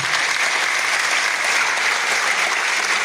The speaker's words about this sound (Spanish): Les pido un aplauso para estas personas